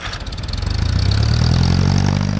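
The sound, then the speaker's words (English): Engine of a biogas generator, fed digester gas from a dairy manure lagoon, fires up and settles into a steady, loud, low rumbling run with a constant throb and no voices. “As he opens the gas line from the lagoon to the generator and flips the ignition, the sound of electricity being made drowns out all the jokes.”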